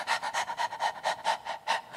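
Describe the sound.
A human voice imitates a female dog panting: quick, rhythmic, breathy huffs repeated many times at a steady pace, fairly soft and with no talk over them.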